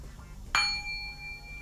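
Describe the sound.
A gong is struck once with a sharp metallic clang. A clear, sustained ring follows and lingers quietly to the end.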